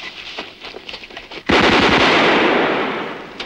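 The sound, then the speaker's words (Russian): Machine-gun fire aimed at German soldiers in a war scene: a sudden, loud sustained burst of rapid shots that runs for about two seconds before tapering off. “стреляет по немцам, привлекая все внимание к себе.”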